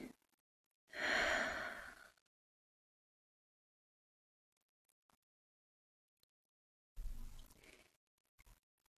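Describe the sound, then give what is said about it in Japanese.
A deep breath is exhaled slowly during a guided breathing exercise in a morning meditation: a long breathy sigh of about a second, then a quiet pause, then another breath near the end. “目を開けたら、もう一つ大きく息を吸います。しっかり吐いて。”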